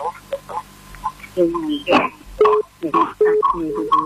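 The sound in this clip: A radio plays in the background of a call-in phone conversation, heard thinly over the telephone line as uneven, mid-level voices and pitched tones with brief gaps.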